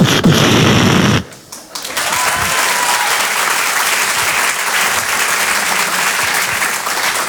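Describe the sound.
Applause produced by the performer himself: a loud, dense roar of crowd-like clapping that drops out abruptly about a second in, then returns and holds steady to the end.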